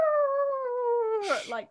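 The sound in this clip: A human voice imitates a dog or wolf howl: one long, steady, fairly loud tone that sinks slowly in pitch, then breaks into a short, rough, breathy ending.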